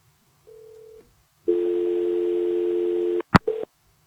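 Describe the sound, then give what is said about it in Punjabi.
Telephone tones after a disconnected call: a short steady beep, a pause, then a long unbroken tone lasting nearly two seconds, cut off by a sharp click and one brief final beep. No voices. “ਹਾਂਜੀ, ਤੁਹਾਡੀ ਕਾਲ disconnect ਹੋ ਗਈ ਜੀ।”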